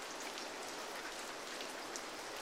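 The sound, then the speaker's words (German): Rain falls as a steady, faint, even hiss of patter, with a few slightly sharper drops standing out; no voices are heard. “Es regnet.”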